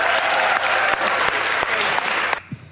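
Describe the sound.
Audience at the 57th annual American Council of the Blind convention applauding to welcome a speaker. Loud, steady clapping from many hands stops abruptly just before the end, leaving near-quiet.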